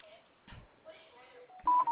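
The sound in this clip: Keypad tones sound from a mobile phone as a message is typed. Two short steady beeps come near the end, after quiet talk.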